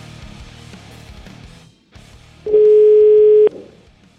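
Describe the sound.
A telephone dial tone sounds as a call is placed to a caller. Quieter mixed sounds come first, then one loud, steady, unbroken tone holds for about a second before cutting off.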